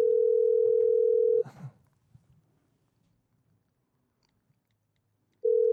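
A telephone dial tone hums steadily at one pitch while a call is being placed, then breaks off with a short rattling clatter. Near silence follows before the tone briefly returns at the end.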